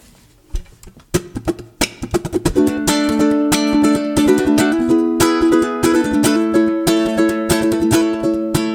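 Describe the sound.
A Pono ukulele, a gigging instrument, plays a song intro: a few single plucked notes, then steady strummed chords that ring on with bright, sustained tones to the end. No singing or talk.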